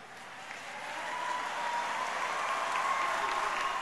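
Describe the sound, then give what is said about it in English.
Audience applause at a political speech, a dense wash of clapping that swells over the first seconds and then holds steady and fairly loud, with no clear words. “this really brought out some of the biggest response from the audience”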